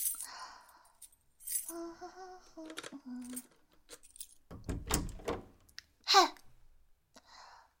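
Keys rattle at a locked bedroom door as it is unlocked: a few metallic jingles and clicks come in short bursts, with one sharper, louder click near the end.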